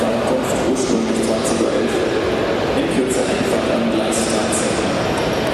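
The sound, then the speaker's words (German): Busy train station ambience at Munich Hauptbahnhof, heard from the balustrade above a waiting train. A continuous wash of crowd and rail noise runs throughout, with a person talking over it. “Zug steht jetzt da unten, abfahrbereit. Von daher tipptopp. Ich stehe gerade auf der Balustrade Münchner Hauptbahnhof.”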